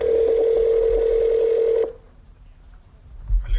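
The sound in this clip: A telephone tone while a number is dialed: one steady, mid-pitched electronic tone holds for about two seconds, then cuts off into quiet line noise.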